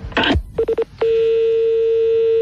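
Touch-tone telephone dialing: a short noisy burst, then three quick evenly spaced beeps, followed by a single sustained steady tone that runs to the end.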